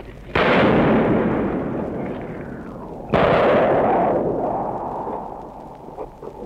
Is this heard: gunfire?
yes